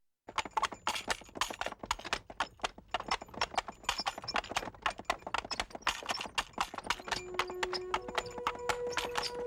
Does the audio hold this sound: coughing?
no